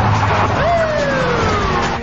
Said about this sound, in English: Police cars race onto the street.